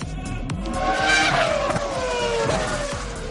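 Race car engines roar and tires squeal in a motor sports theme jingle, a loud, continuous wash of revving with gliding engine pitch throughout.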